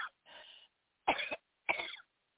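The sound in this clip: A person coughs and clears their throat during a sermon. A faint catch is followed by three distinct, sharp coughs, each separated by a brief silence.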